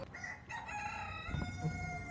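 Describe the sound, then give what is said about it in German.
A rooster crows once, a faint, strained harmonic call that wavers over a few seconds with no other sounds around it. “Aber wenn das passieren sollte, dann hört man den Hahn pfeifen.”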